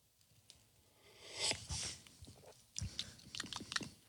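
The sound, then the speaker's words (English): Slurping and wet mouth sounds as hot, expensive coffee with creamer is sipped: a faint, breathy slurp followed by many quiet smacking clicks. “So here comes the first sip of this very expensive coffee from Pasadena.”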